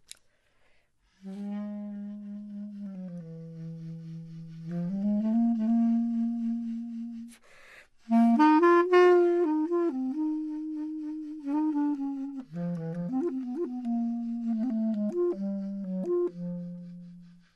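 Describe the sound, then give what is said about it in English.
A solo clarinet plays in its lower register using the tenor saxophone subtone technique, giving a breathy, airy tone with vibrato. Two melodic phrases are separated by a brief pause, and the second is livelier with quick note changes. “I would take the subtone technique from the tenor saxophone, which maybe the legit clarinetists, they don't necessarily approve of, and I would make the lower register sound like this.”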